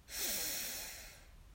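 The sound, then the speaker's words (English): A deep breath during a guided relaxation exercise: a single soft, airy rush that swells quickly, then tapers slowly over about a second, with no talk. “Another breath in, breathe in,”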